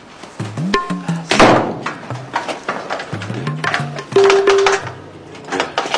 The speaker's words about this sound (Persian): آقا این در قفل شده. خانم ندیم، من اینجا گیر کردم، یکی بیاد این در رو وا کنه.